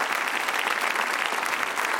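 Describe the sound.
An audience applauds a speaker as he accepts the closing ovation. The clapping is dense, steady and unbroken from start to finish, with no voices over it.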